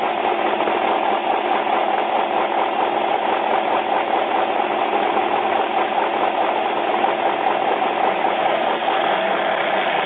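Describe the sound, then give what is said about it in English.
A race vehicle engine idles steadily, the Menzies Motorsports Red Bull off-road machine waiting seconds before the green flag at the San Felipe 250. It gives a continuous, even, mid-pitched rumble with a slight rattling texture and no voices. “Justin has the ride of his life, one of the best programs around, Menzies Motorsports, in that Red Bull machine, just 15 seconds from going green.”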